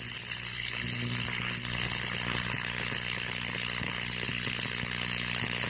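Electric arc between a pair of carbon electrodes set in a drilled fire brick furnace, fed from a 220 volt outlet: a loud, harsh, continuous buzzing crackle with a steady hum underneath and no pauses.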